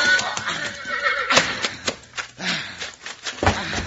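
A horse, a lean Western cow pony being ridden hard near a desert arroyo, whinnies loudly several times over dense, rough background noise.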